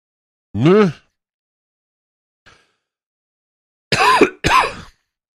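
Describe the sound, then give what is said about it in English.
A few harsh coughs from a person whose cough is getting worse: first a rough, voiced hack, then a faint short catch, then two loud coughs in quick succession, with silence between them. “sorry, my cough's getting worse”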